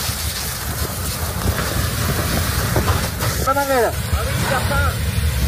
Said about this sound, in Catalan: El so de molts dels vídeos que ens estan arribant a aquesta hora, aquest és el so de l'incendi de Los Gallardos.